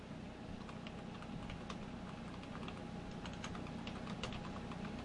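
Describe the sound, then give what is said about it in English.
Typing a search on a computer keyboard: a quick, irregular patter of faint key clicks over a steady hiss, with no voices. “I just typed in YouTube censoring speech.”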